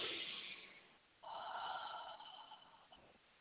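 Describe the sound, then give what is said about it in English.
A deep breath during a guided chakra meditation: two soft, airy breath sounds, the second longer and fuller, faint and with no talk over them. “And you hear my deep breath, right?”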